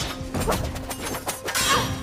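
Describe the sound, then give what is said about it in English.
Swords clashing in a forest battle between two fighters, with a few sharp metallic strikes and crashes over continuous rough noise, fairly loud throughout. “They battle with swords.”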